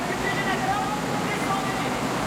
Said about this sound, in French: Où donc êtes-vous? Derrière la chute d'eau! Comment derrière la chute d'eau?